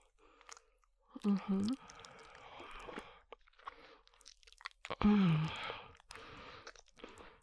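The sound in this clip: Chewing and crunching as someone tastes juicy food: wet, irregular bites and mouth sounds, with two low hummed murmurs of appreciation rising out of the munching.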